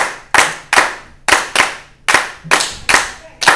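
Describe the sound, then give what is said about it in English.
Hands clapping in unison as a group practises a rhythm pattern. Sharp, loud claps, each with a quick decay, fall in an uneven repeating rhythm with short gaps between them. “So everybody clap your hand like that.”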